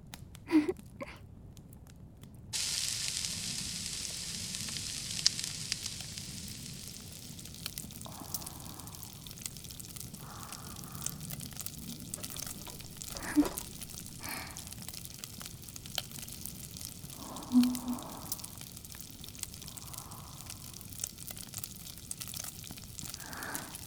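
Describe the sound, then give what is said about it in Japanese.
Food sizzles while grilling, with vegetables browning, a steady faint hiss that runs throughout, broken by a few soft pops and crackles. “慌てないで、私がちゃんと順番に焼いてあげるから。”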